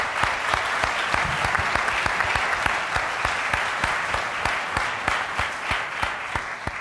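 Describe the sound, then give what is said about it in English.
An audience at a Climate One panel event gives the speakers another round of applause. Many sharp, distinct claps come at a brisk, fairly even rhythm and keep a moderate level throughout. “Let's give them another big hand here.”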